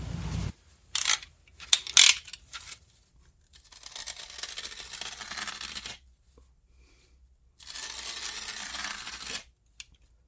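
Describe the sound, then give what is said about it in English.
Utility knife cutting through carpet: a few short scraping and clicking handling sounds, then two long rasping, tearing strokes of harsh noise separated by a pause, with no talk. “we're going to have to cut the carpet. I'll grab a utility knife.”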